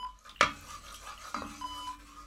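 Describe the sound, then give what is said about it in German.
Instant chicken soup from a packet being prepared, heard as two quiet metallic clinks of a spoon against a pot or bowl, separated by a short pause, over low, faint background scraping. “Dann koche ich Ihnen erstmal eine Hühnersuppe. Die hält Leib und Seele zusammen. Gut, dass ich immer ein paar Tütensuppen dabei habe.”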